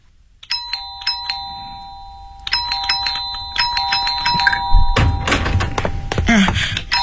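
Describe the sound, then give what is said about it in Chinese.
An electronic doorbell rung repeatedly at the door of a family home: a bright, steady tone pressed in many short, quick bursts, loud and insistent, with heavier thuds and clatter building near the end. “你不要老是摁门铃，好吧？”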